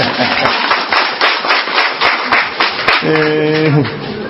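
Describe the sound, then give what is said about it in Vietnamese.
An audience at a church talk claps in a fast, steady rhythm along with a Christmas song. The loud, crisp claps come in many even beats, and a voice enters near the end. “Nếu vỗ tay lên đi, xin phấn khởi.”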